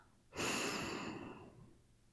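A single deep breath is drawn in, a soft, airy inhale that swells quickly and then slowly fades over about a second and a half, heard alone and faint.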